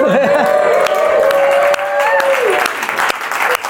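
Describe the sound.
A live studio audience cheers and applauds as a welcome, with dense clapping and whoops throughout and voices calling out over the crowd noise.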